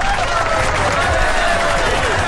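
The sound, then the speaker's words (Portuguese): Studio applause celebrates national newborn heel-prick test day, a sustained, dense wash of many hands clapping at an even, fairly loud level throughout. “Merecidíssima essas palmas aí para esse dia”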